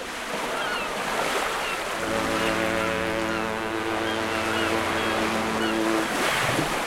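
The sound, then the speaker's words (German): Harbour ambience at the port of Hamburg: a steady wash of water and wind, with a low, sustained ship's horn sounding for about four seconds in the middle. “Aber wir beide, wir starten erstmal in ganz vertrautem Terrain hier bei uns zu Hause. Ja, nämlich im Hamburger Hafen.”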